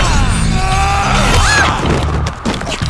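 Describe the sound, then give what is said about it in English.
A steel spear blocks blades of shadow in an audio drama fight scene: sharp smashing and whacking impacts with ringing tonal layers, loud at first and then easing into scattered hits. “Steel blocks shadow as Derrick uses his new spear to halt Kayla's blades on their lethal course.”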